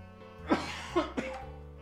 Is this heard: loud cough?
yes

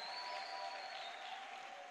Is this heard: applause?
yes

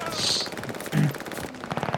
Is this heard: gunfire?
yes

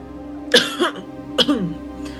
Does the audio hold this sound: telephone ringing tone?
no

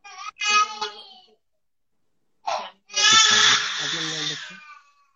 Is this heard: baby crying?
yes

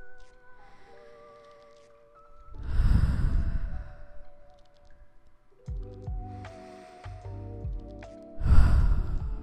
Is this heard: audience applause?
no

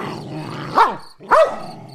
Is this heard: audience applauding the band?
no

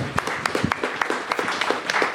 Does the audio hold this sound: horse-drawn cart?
no

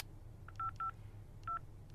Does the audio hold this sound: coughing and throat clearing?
no

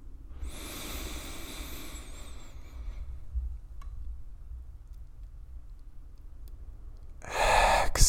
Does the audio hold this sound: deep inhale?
yes

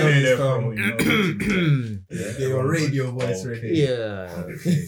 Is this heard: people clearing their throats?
yes

